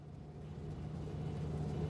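A car drives off, its engine a faint, low rumble with a steady hum that grows slightly louder as it pulls away.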